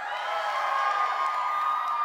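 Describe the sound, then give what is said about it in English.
High school students shout and cheer as a crowd, a sustained, high-pitched wall of whooping voices that holds at an even loudness without pause. “If you're in high school in this place, let me hear you give a shout.”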